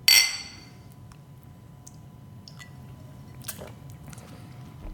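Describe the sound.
Glasses of a sweet bottled drink clink together in a toast: one bright, ringing chink right at the start, fading quickly into near quiet with only faint, scattered small sounds afterwards.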